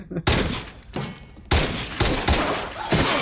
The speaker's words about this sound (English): Sorry, but wasn't that rather a waste of bullets? Yeah, well, want to make sure he was down, I suppose.